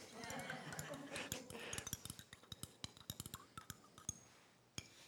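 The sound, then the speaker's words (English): A spoon clinks against a cup as salt is stirred into water, giving many quick, light taps in a loose, uneven rhythm that grows sharper and more distinct after a softer, blurred opening stretch. “So there's salt in there. I'm going to stir that up. A little more.”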